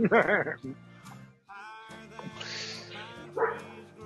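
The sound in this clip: A dog barks: a few sharp, loud barks at the start, then quieter yips and a higher whimpering sound, with people talking throughout.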